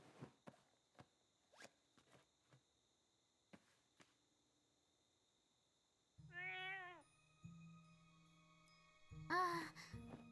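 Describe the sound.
A cat gives one clear, tonal meow partway through. A few soft, faint clicks come before it in an otherwise quiet scene.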